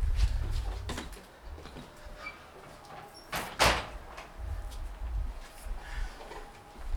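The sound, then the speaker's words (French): A door slams shut at the entrance to someone's home, a single sharp bang in the middle of a low, steady rumble of background noise. “J'ai claqué la porte avec les clés à l'intérieur.”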